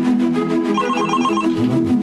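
A telephone rings with a steady, continuous electronic trilling tone that repeats throughout without pause.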